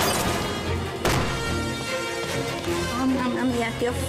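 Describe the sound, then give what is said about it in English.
A wooden crate of fruit crashes to the ground with one sharp, loud impact early on, inside a dense, continuous wash of busy action-scene sound. “The crate crashes to the ground.”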